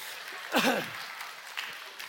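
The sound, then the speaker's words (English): Audience applause for a volunteer during a church service: a steady, even wash of clapping with one brief, louder swell near the start. “Let's give Nate a round of applause for his holding ability.”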